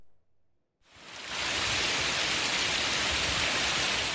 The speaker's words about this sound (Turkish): Dolu ve kuvvetli yağmur etkili oldu.